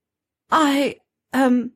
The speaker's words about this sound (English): She gave an embarrassed little cough and cleared her throat.